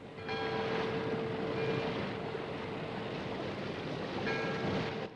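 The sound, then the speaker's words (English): A ship ploughing over grey waves as its deck tips and rolls on leaving harbour, with steady rushing water and wind noise over a constant low drone and no voices. “The deck of the ship tips and rolls as she ploughs over the grey waves.”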